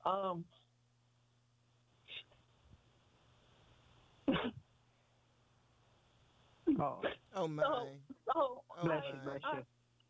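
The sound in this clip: A sneeze comes as a short, sharp burst during a conversation, with another brief burst a few seconds later, followed by people talking.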